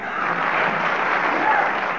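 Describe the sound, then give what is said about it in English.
Audience applause encouraging a contestant, a steady, dense wash of clapping that stays even and fairly loud for the whole stretch. “I'm going to ask the audience to give you a little bit of applause to encourage you.”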